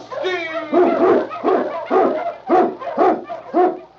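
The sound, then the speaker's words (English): Eskimo husky sled dogs bark in a quick, evenly spaced run of loud barks, one after another, with a whining cry just before the first bark. “King, the swiftest, strongest of Eskimo lead dogs, blazes the trail through storm and snow for Sergeant Preston”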